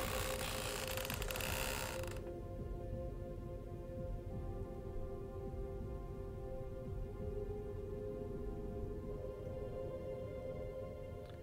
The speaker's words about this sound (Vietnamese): Anh Kiên còn đệm cả mấy cái thanh gỗ ở đó. Mỗi một lần ông già lăn chiếc xe đi, thanh gỗ nó vặn, nó kêu y xỉ như vậy.